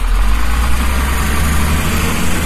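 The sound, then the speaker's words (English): A bus engine idles with a steady, loud, low rumble that holds without change throughout, with no voices over it. “let that bus go.”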